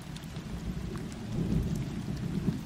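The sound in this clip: Heavy rain pours down in a jungle in pitch darkness, a dense, steady hiss of drops on wet ground with a low rumbling swell building through the middle and no voices.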